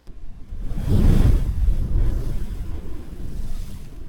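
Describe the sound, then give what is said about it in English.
Whooshing tone swells over steady ocean waves in a guided breathing session, rising to a broad, loud rush early on, then easing into continuous, even surf wash that carries on to the end. “During a Tantric Touch session, you will hear the sound of waves throughout the session, and then you will hear on an overlying tone that sounds something like this”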